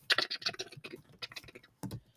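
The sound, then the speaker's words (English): People typing on a computer keyboard, a quick, irregular run of many soft clicks and taps, faint overall, with a short pause before a final burst near the end. “That's the sound of us typing”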